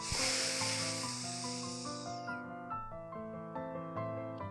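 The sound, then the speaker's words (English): A slow breath drawn in through the nose with the mouth closed, shown as an example of belly breathing. It is a soft, steady hiss of about two seconds over quiet background music. “Breathe in through your nose with your mouth closed, like this way.”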